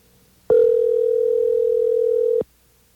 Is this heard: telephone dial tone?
yes

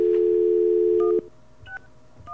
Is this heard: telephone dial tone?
yes

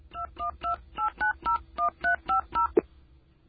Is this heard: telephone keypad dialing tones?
yes

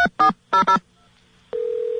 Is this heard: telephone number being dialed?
yes

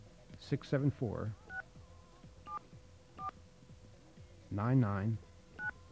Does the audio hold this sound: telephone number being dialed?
yes

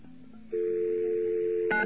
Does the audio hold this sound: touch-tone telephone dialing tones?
yes

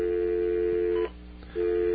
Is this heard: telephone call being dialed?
yes

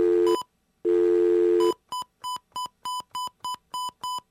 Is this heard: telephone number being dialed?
yes

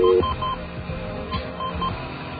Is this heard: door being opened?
no

